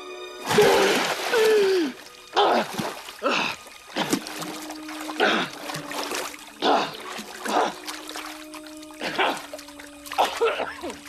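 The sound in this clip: Water splashes as a swimmer bursts up through the surface of a pool: a loud, broad splash at the start, then many smaller separate splashes and drips, with a low steady hum beneath.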